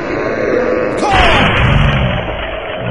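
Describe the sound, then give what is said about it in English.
A huge creature smashes into a sled, heard as a sudden heavy crash about a third of the way in that rumbles on through a dense, noisy background. “Some huge creature just blindsided the sled. Knocked me clear.”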